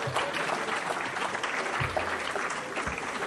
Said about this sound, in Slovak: Zatlieskajte im.